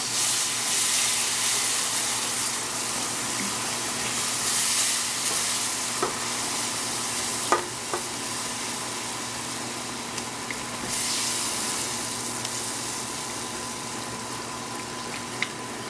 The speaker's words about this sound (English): I'm going to go ahead and start adding my milk in here.